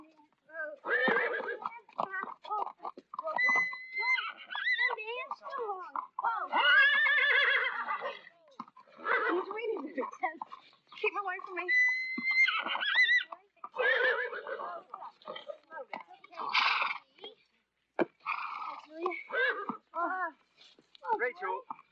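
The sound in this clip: Horse named Sundance neighing by a barn, a few whinnies mixed in among people talking throughout.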